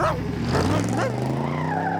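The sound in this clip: A taxi's engine revs hard as it speeds off in pursuit of a black limousine, a loud, steady drone whose pitch climbs gradually as the car accelerates.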